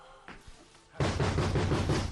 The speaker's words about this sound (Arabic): مين؟ مين اللي بيخبط كده؟